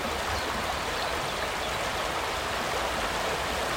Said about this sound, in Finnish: Mustijoen pisin luonnontilainen koski. Ja siellä kun herra radiokuuluttaja aamusella aikaisemmin tänään käväisi paikan päällä, niin tältä siellä kuulosti.